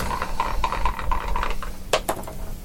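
Dice roll in a tabletop game: a run of light, regular clicks, then a few sharper clatters as the dice land, all fairly faint over a low background hum.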